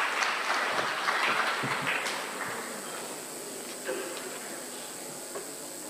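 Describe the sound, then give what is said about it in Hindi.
Applause welcomes a speaker at a spiritual family gathering: dense, steady clapping that starts full and gradually thins and fades over several seconds, with no one talking over it. “हम करतल ध्वनि से आपका स्वागत करते हैं।”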